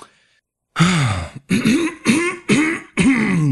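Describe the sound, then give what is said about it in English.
A person clearing their throat in five loud, raspy, harsh bursts. The first is the longest, the rest follow in a quick, even rhythm, with no talk around them. “Made throat clearing noises.”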